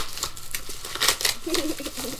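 Crinkling and tearing of plastic packaging as a music album is torn open, a rapid run of sharp, uneven rustling bursts at moderate loudness.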